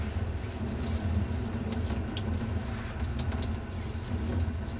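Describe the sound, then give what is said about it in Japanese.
Tap water runs steadily into a sink while chrysanthemum petals are washed during cooking, a continuous even rushing hiss with no pauses. “今ちなみに菊の花びらを洗ってるところなので流水音が流れてると思います”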